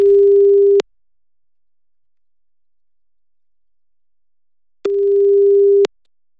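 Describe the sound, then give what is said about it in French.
Telephone ringing tone while a call is placed: two bursts of a steady, loud mid-pitched tone, the first cut short at the start, separated by about four seconds of silence. “On appelle Lucille et c'est parti.”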